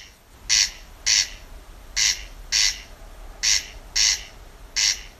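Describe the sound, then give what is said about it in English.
A corncrake calls at Fota Wildlife Park in County Cork, giving seven loud, rasping bursts that come mostly in pairs, with a steady rhythm against a quiet background hiss. “During our live Dawn Chorus broadcast in May last year, Blonidney Coffey brought us the distinctive sounds of the corncrake”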